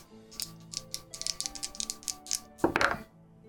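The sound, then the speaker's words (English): Percentile dice rolled, a pair of ten-sided dice clattering in many quick, light clicks and taps, ending in a louder, denser rattling burst as they settle. “roll percentile dice for me”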